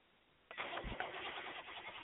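A diesel truck engine trying to start in cold weather bursts into loud, rough cranking after a short quiet moment and keeps churning steadily to the end.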